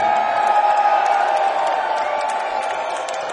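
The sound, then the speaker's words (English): Audience applause and cheering at a live evening event: a dense, continuous wash of clapping with scattered whoops, loud from start to finish and easing slightly toward the end. “One more, everybody give Jake a round of applause.”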